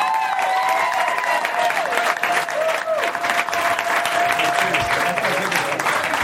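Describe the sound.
Loud, dense audience applause greets a comedian's entrance at a live comedy show in San Diego, a steady roar of clapping that holds for about six seconds.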